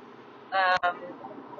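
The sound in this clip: A single short car horn honk sounds out of steady road noise while a car drives in traffic. The honk is a bright, buzzy tone lasting about a third of a second, with a brief cut partway through.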